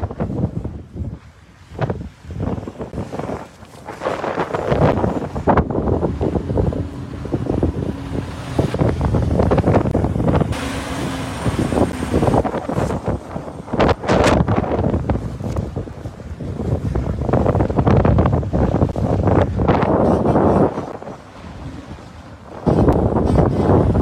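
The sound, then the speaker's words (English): A bitterly cold winter wind buffets the microphone outdoors at a trucker convoy protest in Canada in late January. Loud rushing gusts roar almost without pause, swelling and easing over the whole stretch. “It's a bitterly cold wind chill.”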